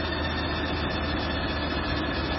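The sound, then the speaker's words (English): A car engine runs with a dense, steady low drone and throbbing rumble that holds level for the whole moment, with no clear rise or fall in pitch. “hearing that noise every time I'm shifting up and down, making the engine speed up”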